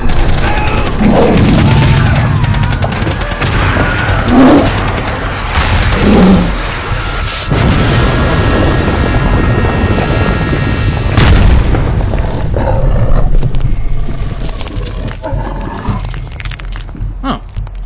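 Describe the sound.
A loud barrage of missiles fired at Godzilla, a dense, continuous roar of launches and blasts with rumbling booms that thins out toward the end.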